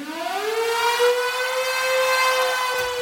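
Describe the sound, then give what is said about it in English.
A storm siren wails at the start of a 1977 live rock recording. Its tone sweeps upward, then holds a steady, loud, harmonically rich pitch on its own, without audible music or voices. “Let's go with a song that opens with a storm siren”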